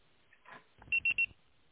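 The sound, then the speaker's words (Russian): A voicemail beep tone: three short, identical high-pitched electronic beeps in quick, even succession, following a faint rustle. There is no talk. “Можете оставить сообщение после сигнала.”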